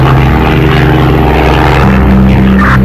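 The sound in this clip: An aircraft flying, a loud, continuous engine drone with steady low humming tones that fills the whole moment without a break.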